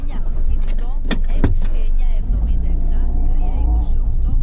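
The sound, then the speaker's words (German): A car drives out of a village on the way to a new border fence, giving a steady, loud rumble of engine and road noise throughout, with a few brief sharper knocks and a voice talking over it. “Wir fahren aus dem Dorf heraus.”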